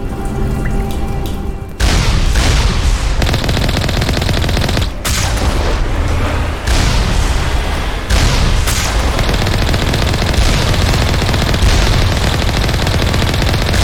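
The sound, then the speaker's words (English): Gunfire in a science-fiction video game, with loud, continuous bursts of rapid automatic fire broken by a few brief pauses. “Whoa, what's shooting at me?”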